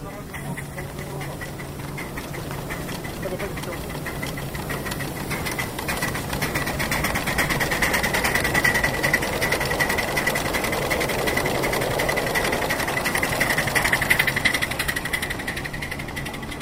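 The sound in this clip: A small passenger-carrying locomotive moves off in reverse on a track with the throttle opened slightly, giving a steady rattling mechanical churn with a low hum and a faint whine that grows gradually louder.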